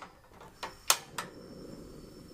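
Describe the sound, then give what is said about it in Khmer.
A gas stove is switched on for cooking, giving four sharp, brief clicks spaced a fraction of a second apart over a faint background. “មុនដំបូងនេះនាងខ្ញុំនឹងបើកភ្លើង”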